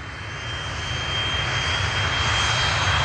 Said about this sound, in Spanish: El avión de la KLM, pilotado por Van Santen, levanta el morro en el despegue